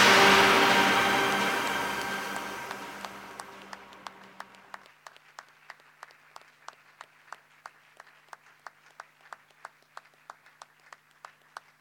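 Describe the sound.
An audience applauds to welcome a speaker. A full wash of clapping gradually fades over several seconds and settles into steady, rhythmic clapping with many sharp, evenly spaced claps.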